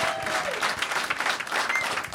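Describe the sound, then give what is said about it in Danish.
Studio audience applause welcoming a politician guest on a Danish show. The clapping is dense and steady throughout, with a few louder swells. “Så mine damer og herrer, giv en kæmpe stor hånd til en politiker. En ægte politiker, simpelthen. Giv en stor hånd.”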